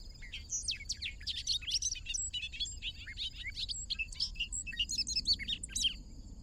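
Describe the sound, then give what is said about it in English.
A bobolink blurts out short snatches of its song in a busy run of high, bubbling chirps and twittering notes, faint over a steady low background rumble. “The bobolink has become careworn and fretful and blurts out snatches of his song.”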